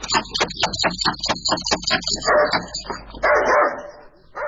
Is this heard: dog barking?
yes